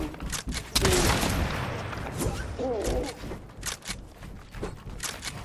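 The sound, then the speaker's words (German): Gunfire from a sniper rifle fired without a scope in a video game: a loud sharp shot early on, then a few more scattered cracks and thuds mixed with other game sounds. “mein Sniper ist irgendwie ein bisschen mit No-Scope ein bisschen unnormal.”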